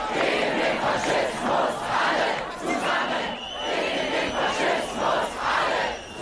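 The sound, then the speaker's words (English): Protesters in Berlin chant "Everyone against fascism" as a crowd of many voices, repeating the slogan in steady rhythmic bursts that rise and fall evenly through the whole stretch. “The sound of protesters in Berlin last night chanting "Everyone against fascism."”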